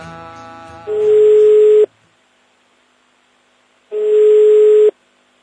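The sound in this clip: Ringback tones of an outgoing telephone call being placed: two long, steady, mid-pitched beeps, each lasting about a second and separated by a silent gap of roughly two seconds, loud and alone after a brief faint sound at the start.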